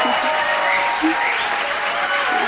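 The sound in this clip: Applause from a studio audience in a Polish radio studio, a dense, steady wash of many hands clapping that stays loud and even for the whole stretch.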